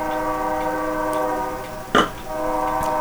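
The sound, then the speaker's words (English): A train passes outside an open studio window, its horn held as a steady, sustained multi-tone drone throughout, broken by one short, louder, noisy burst near the end. “people can hear the train”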